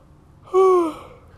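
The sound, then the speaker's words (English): A person yawning: one short, voiced, breathy exhalation that dips slightly in pitch at its end, fairly loud and alone. “sorry about the yawning”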